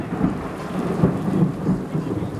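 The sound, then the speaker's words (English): Heavy rain pours during a nighttime thunderstorm over a village, a dense, steady roar with low rumbles of thunder swelling beneath it. “Soon the sky opens and the rain is fierce, and I half wonder if God's chosen this night to drown out the wickedness of the village.”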